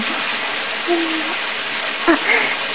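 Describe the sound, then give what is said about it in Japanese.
Running water rinses soap suds off during bath time, a continuous broad hiss that stays fairly even throughout, with a couple of brief faint tonal blips over it. “もこもこは全部流れちゃったね。”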